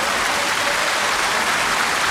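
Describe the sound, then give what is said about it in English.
Steady, dense applause for a quiz winner, a continuous wash of many hands clapping at an even, fairly loud level for the whole stretch without pauses. “A round of applause for him.”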